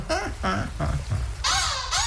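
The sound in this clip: Black-headed gull calls with a laughing character: a few harsh, harmonic cries in quick succession, the later ones higher and more drawn out, loud and alone.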